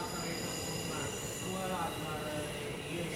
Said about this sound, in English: The metro hurls itself down the tracks.